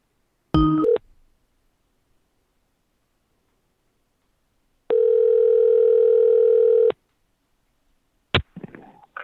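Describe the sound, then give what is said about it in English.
A telephone dial tone while a phone call is placed: a steady single-pitched tone lasting about two seconds, preceded by a brief multi-tone chime and followed by a short burst of noise. “Let's call your mom. Okay, let's call my mom.”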